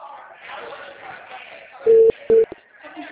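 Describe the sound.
Ringing tone of an outgoing telephone call: two short, steady, low-pitched tone bursts in quick succession, the second briefer than the first, with people talking before and after.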